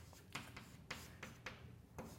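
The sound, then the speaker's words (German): Handwriting strokes during a physics lecture, heard as several short, scratchy bursts spaced irregularly over a faint, steady background. No one speaks. “Ja, und jetzt schreibe ich halt wieder”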